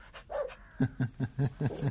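An old dog barks six short, mid-pitched times in a quick, even rhythm, fairly faint and with no talking over it.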